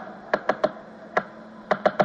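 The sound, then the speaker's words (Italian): Typewriter keys strike in seven crisp, sharp clacks, bunched in small uneven clusters with short pauses between them, alone without talk. “E la docile e serena macchina da scrivere.”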